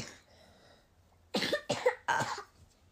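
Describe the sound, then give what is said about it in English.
A small child with a cold coughs three times in quick succession. The coughs are harsh and breathy and come after a quiet, near-silent lead-in. “has got a little cough”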